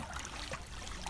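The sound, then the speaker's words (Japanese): Waves lap at the shore of the Sea of Galilee in Israel, a faint, continuous gentle wash and trickle of water. “今聞いていただいているのはですね、イスラエルガリラヤ湖のこの波打ち際、そこの音を聞いていただいてますからね。”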